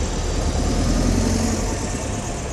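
A car drives past with a loud, steady engine drone and a low rumble, holding an even level throughout.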